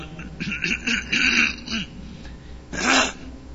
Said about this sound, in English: I can get the frog out of my throat.